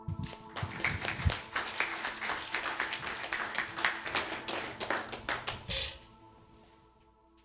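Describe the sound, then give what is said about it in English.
An audience applauds to welcome a pastor to the front: loud, dense clapping from many hands runs steadily for about six seconds, then stops abruptly into near quiet. “This time I'm going to invite Pastor Dylan to come up. You just give him a welcoming hand.”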